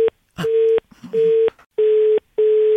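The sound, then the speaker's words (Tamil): Phone line tone after a call is cut: loud, repeated on-off beeps at one steady pitch, about five pulses with short silent gaps, the first one clipped short. “தயவு செஞ்சு நான் போனை cut பண்றேன்”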